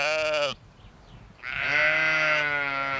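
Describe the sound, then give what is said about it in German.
Sheep bleating at feeding time in a flock of ewes and their lambs: a short, loud, nasal bleat, a brief pause, then a longer, wavering bleat that carries to the end. “Die Herde besteht aus 40 Mutterschafen und ihren Lämmern.”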